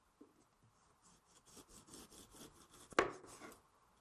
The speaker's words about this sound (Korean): 밑둥을 먼저 잘라 줄게요. 반대쪽 부분도 도려내어 줍니다.